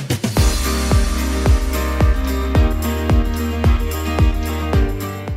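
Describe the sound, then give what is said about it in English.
A marching band performs a high school football halftime show. A loud, regular drum beat drives under sustained brass chords, and no one speaks over the music. “Hopefully you can hear the band performing in the background for halftime.”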